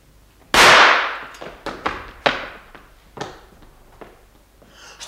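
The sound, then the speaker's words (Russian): A gunshot staged as a sound effect in a drama: one sharp, loud crack near the start, then a few fainter knocks that die away. “Кто стрелял? Я слышал, кто-то стрелял.”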